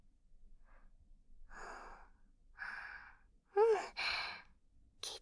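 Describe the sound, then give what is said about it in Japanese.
A person takes slow, deep breaths, several soft breathy inhales and exhales, one of them ending in a voiced, sigh-like release. The breaths are fairly quiet, with short pauses between them. “私の言う通り、深呼吸してみよう。”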